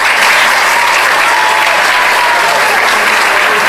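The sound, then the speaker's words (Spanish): Loud, dense applause from a crowd at an award ceremony, honoring a recipient of a community-action award, steady and unbroken for several seconds. “El aplauso nuevamente para Néstor Bueri, que recibió este preciado galardón en esta entrega de la Orden de la Campana por acción comunitaria.”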